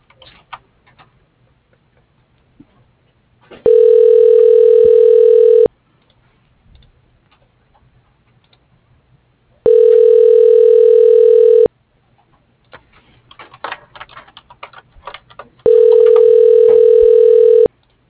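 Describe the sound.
A telephone line rings while a call is transferred to voicemail. Three steady, even ringback tones last about two seconds each, separated by gaps of quiet line with faint clicks.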